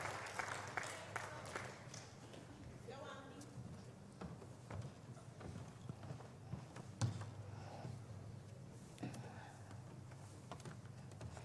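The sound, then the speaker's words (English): Audience applause welcoming a panel onto a live stage, a crackling spread of clapping that is strongest at the start and thins into scattered claps, with voices mixed in. “Let's put our hands together to welcome an amazing panel.”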